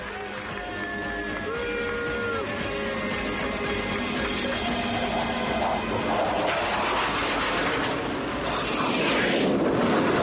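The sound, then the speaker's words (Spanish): An airplane touching down on landing at the end of a world-record flight: a steady, loud engine drone with whining tones that grows rougher and noisier toward the end. “El avión toca tierra y se lee nuevo récord mundial.”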